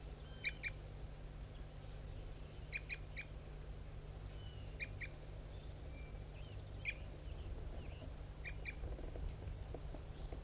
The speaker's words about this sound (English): Start recording bird 5-3 giving aggressive fight notes.